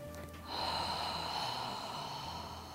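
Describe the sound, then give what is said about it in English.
A slow breath is pushed out through an open mouth as if fogging up a mirror. The soft, steady, breathy hiss begins after a short pause and holds to the end. “inhale through your nose and exhale through your mouth as though you're fogging up a mirror. And pay attention to the shape of the back of your throat as you do this.”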